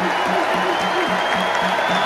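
Dense, continuous applause and crowd noise from a standing ovation for John Tyson, a steady, loud wash of clapping throughout the short burst.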